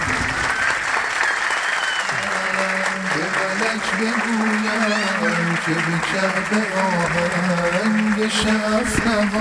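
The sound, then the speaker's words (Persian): Applause at a religious gathering, steady crowded clapping that runs throughout while voices carry on over it from the second moment onward. “هر چقدر علی رو دوست دارید به همون اندازه کف قشنگ بزنید.”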